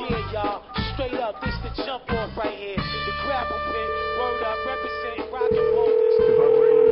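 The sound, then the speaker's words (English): Telephone tones on a studio line that won't ring through: a voice talks briefly, then steady electronic phone tones take over, first a held tone and then a louder continuous tone running to the end. “Look, I'm trying to ring the studio line. It doesn't want to work. I can't call him in. I gotta dial him the long way.”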